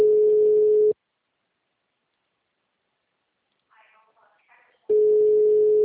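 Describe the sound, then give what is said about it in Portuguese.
Telephone ringback tone while calling someone: two steady, low-pitched beeps about four seconds apart, with a faint voice briefly heard in the quiet gap. “Tô ligando de novo pra ele.”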